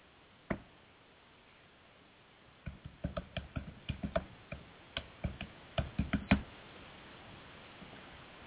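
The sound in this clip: Typing on a computer keyboard: a lone click, a pause, then a few seconds of many irregular, sharp taps at an uneven pace, then quiet.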